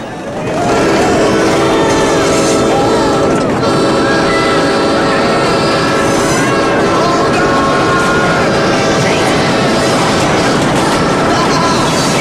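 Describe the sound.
A train approaches a bridge: a loud, continuous rumbling roar with grinding tonal overtones swells in within the first second and then holds steady throughout.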